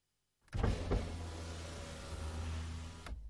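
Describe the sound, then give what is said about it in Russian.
A car's power window motor whirs as a window is lowered partway inside a parked car in the evening: a steady electric hum for under three seconds that stops with a small click. “Я приоткрыл окно, и вечерний воздух заполз в салон.”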